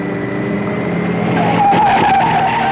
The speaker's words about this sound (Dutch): En achter het stuur! Vol gas!